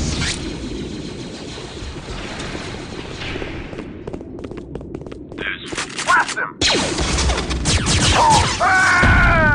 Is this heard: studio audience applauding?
no